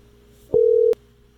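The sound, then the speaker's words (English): A single steady telephone busy tone while someone repeatedly dials numbers to reach a health insurance line. The mid-pitched tone lasts under half a second, with a soft click at each end, over a low background hum. “We're just going to keep dialing numbers till we get someone to answer.”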